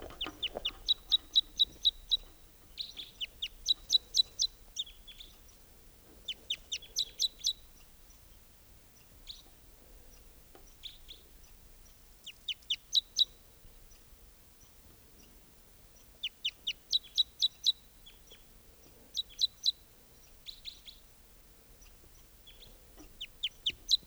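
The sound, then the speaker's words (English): A singing male bird of call type 2 delivers high, rapid chirping phrases in many short bursts separated by quiet pauses, faint and alone. “there's a singing male type 2 here. That recording, here's that bird.”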